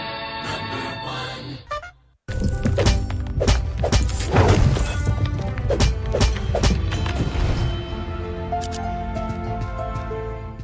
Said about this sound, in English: and I'm pretty sure people have played it because this is uh, available free with Xbox Game Pass. Yeah, this is Moonlighter, isn't it? Moonlighter, yes.